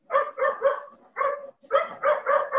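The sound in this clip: Dogs bark in a rapid, loud volley of sharp, harmonic barks, a cluster of several, a brief pause, then another quick run of barks.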